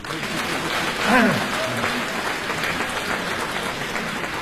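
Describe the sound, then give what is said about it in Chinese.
Applause from an audience at a crosstalk comedy performance, steady continuous clapping throughout, with a brief swell and a short vocal sound breaking through near the start. “再鼓鼓掌。”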